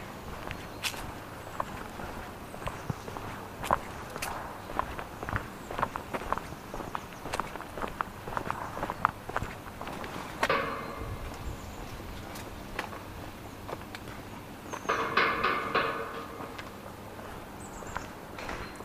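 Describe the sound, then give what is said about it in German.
Footsteps walking at the end of Favoritenpark and through a turnstile: many steady, light steps with a couple of louder, brief rattling bursts partway through and near the end. “So, jetzt sind wir am Ende des Parks angelangt. Jetzt geht es noch durch ein Drehkreuz und dann war es das erstmal mit dem Favoritenpark.”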